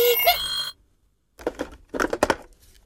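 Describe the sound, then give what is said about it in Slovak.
A telephone bell rings in a short bright burst, then falls silent; after a pause, a few shorter bursts of sound follow. “A vieš ty čo, telefón? Ja ťa nechám ležať a zodvihnem iba slúchadlo.”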